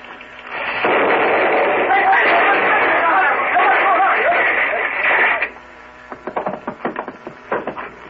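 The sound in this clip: A muzzle-loaded gun is fired out a window and explodes: a sudden blast swells into a loud, sustained roar lasting several seconds, then gives way to scattered crackles and clatters.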